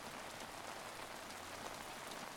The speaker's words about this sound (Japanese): 雨、強くなったね。